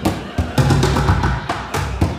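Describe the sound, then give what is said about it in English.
Drumming on upside-down plastic pails: loud, irregular, hollow thuds struck in quick succession, with several strong accents standing out from a dense, busy pattern. “He's the guy who bangs on upside-down plastic pails.”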